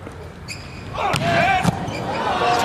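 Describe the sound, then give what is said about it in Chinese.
During a volleyball match involving Iran, a hard, flat jump serve lands with sharp ball impacts under ongoing commentary. “这个跳发球球发的非常重，平打，”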